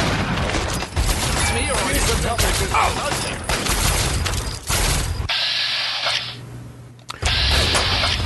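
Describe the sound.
Rapid automatic gunfire from a video game rattles in dense, sustained bursts. A brief pause breaks the shooting before it resumes just as loud and continuous.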